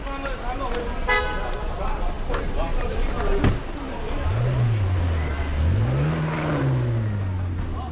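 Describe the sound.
A red metallic McLaren convertible, pulled up at the curb, revs its engine. The low engine note swells, dips and rises again through the second half amid street noise and voices.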